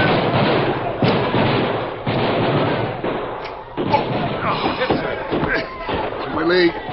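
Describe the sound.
Rifle volley gunfire in a radio drama: a few sharp, loud bursts crack out over steady background noise, with voices talking between the shots.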